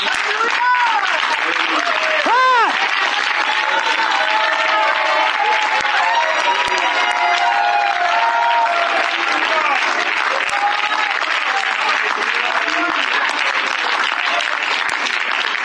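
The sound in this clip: Congregation clapping during a church sermon, a sustained, dense wash of many hands that runs throughout at a steady, loud level, with a voice calling out over the applause.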